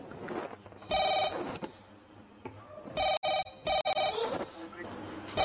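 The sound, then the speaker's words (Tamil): A telephone rings with an incoming call that seems to come from abroad. It gives a bright electronic ring, first a longer burst and then a quick run of short repeated rings, with muffled talk in the gaps. “என்ன foreign கால் மாதிரி இருக்கு?”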